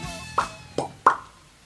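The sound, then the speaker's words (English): Three short, wet lip pops come one after another at roughly even intervals, each a quick smacking click that fades at once, the last one slightly louder. “good lip noise.”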